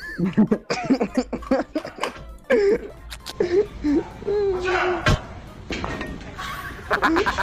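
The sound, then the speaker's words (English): A woman sobbing, with broken, breathy cries and whimpering gasps rising and falling unevenly over several seconds, the outbursts separated by short catches of breath. “You can hear her like sobbing.”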